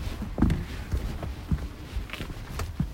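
Footsteps descend a short flight of five steps, a few muffled, uneven treads over steady background noise.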